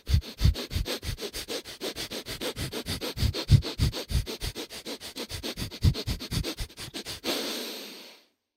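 Breath of Fire breathing: many rapid, forceful inhales through the nose in a fast, steady pulse, ending with one longer breath before silence.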